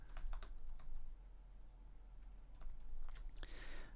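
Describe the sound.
Typing on a computer keyboard to jot down notes: two bursts of rapid key clicks with a quieter stretch of low hum between them, the second burst ending in a brighter clatter.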